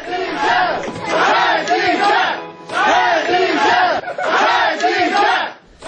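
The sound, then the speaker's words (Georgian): Protesters' crowd shouting and chanting outside the Sabail district court in Baku: loud massed voices rise in repeated long bursts separated by brief pauses. “ეს შეძახილები კი შარშან 5 დეკემბერს ისმოდა ბაქოში, როცა ხადიჯას მეგობრები სამბაილის რაიონულ სასამართლოსთან შეეკრიბნენ მას შემდეგ, რაც ჟურნალისტი ქალი დააკავეს”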